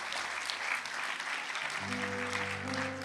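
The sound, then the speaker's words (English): Audience applause, dense steady clapping throughout, with sustained musical tones joining in the second half. “Congratulations and well done. Come on, give them a hand. Come on.”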